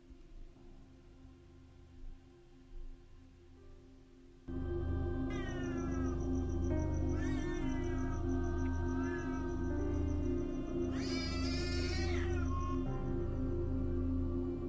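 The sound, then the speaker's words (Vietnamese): A black cat yowls fiercely as if about to fight, with long, drawn-out, wavering cries rising and falling in pitch. The cries start abruptly after a quiet stretch with a low hum, and a shrill peak comes near the end. “Thì thấy con hắc miêu kêu lên dữ dội. Tựa như là con mèo đang chuẩn bị đánh nhau vậy.”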